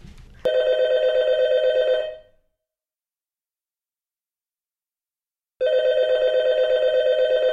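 A telephone rings with an incoming phone-in call: two bright, pulsing trilled ring bursts of about two seconds each, separated by roughly three seconds of silence, the second burst running to the end.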